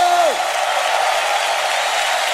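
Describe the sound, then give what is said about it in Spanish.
A church audience shouts cries of victory and joy, a dense, sustained roar of many voices that holds steady and loud throughout. “¿Cuántos pueden dar un grito de victoria, un grito de júbilo?”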